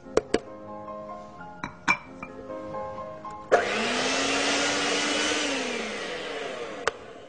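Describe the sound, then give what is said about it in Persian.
An electric mixer beats dough with a steady loud whir after several light clinks of utensils. Its motor tone rises slightly, then eases, and one more clink follows as it stops. “من یه مقدار یه کم با همزم میزنم اینو.”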